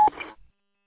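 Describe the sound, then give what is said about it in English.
Roger beep from a radio transceiver at the end of a transmission: one very short, steady beep tone, followed by a brief hiss of static that cuts off into silence. “your Roger beep is on. Roger that. I'll have to go in and turn it off.”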